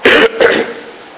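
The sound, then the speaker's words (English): Throat clearing and coughing from a tickle in the throat. A sharp first burst is followed by a second, rougher one that trails off into a fading rasp. “Excuse me, I've got the tickle in the throat that's going around. I'm sorry.”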